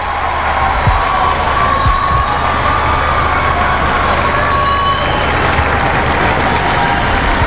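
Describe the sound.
Street crowd outside a cathedral's Nativity facade during a tower inauguration, a dense, steady murmur of many voices with cheering, loud and unbroken throughout.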